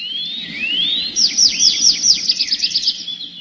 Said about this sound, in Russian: Согласился скворец, и в ту же минуту лес наполнился трелью дрозда.